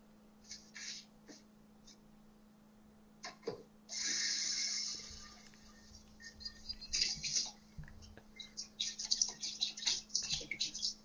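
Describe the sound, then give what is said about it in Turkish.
Water splashing as someone washes their face: a brief steady rush of water, then many faint, irregular splashes and drips over a constant low hum. “Hadi kalk, yüzünü yıka, duymak istiyorum. O su sesini duymak istiyorum, çok hoşuma gider.”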